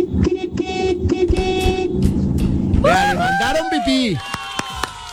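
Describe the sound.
Car horn honking over a noisy, busy background, with several sustained blasts, followed by a stretch of wavering, pitch-bending tones.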